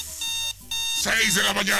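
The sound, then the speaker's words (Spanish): An early-morning alarm clock goes off with a steady, high electronic tone that breaks once briefly and then continues while people talk over it. “Sí, despertador, ponle.”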